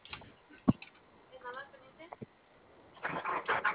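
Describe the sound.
A vehicle engine cranks and catches into a rough, rising roar near the end, after a few faint knocks and brief voices.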